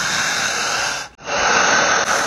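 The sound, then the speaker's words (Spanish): Strong, deep panting breaths, loud and harshly airy with a hissing edge, run as long, insistent pulses broken by brief catches. “Fuerte y profunda. Jadeante. Insistente. La respiración solamente es potente, profunda y larga.”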